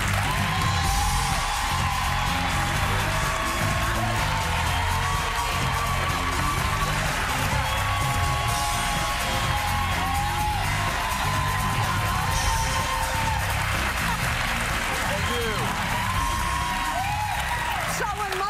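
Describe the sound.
A studio audience on a talk show claps and cheers as a guest is welcomed, with a dense, steady wash of applause and scattered whoops and shouts throughout.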